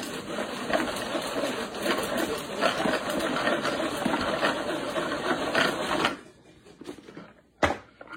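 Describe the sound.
A hand-crank food chopper is spun, producing a steady, fast mechanical whirring rattle with rapid grinding ticks for about six seconds. The whirring then stops abruptly, followed by a single brief knock.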